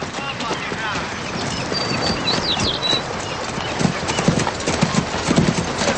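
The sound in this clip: Hoofbeats of two horses being ridden away, a steady clip-clop of shod hooves that turns heavier and more pronounced toward the end.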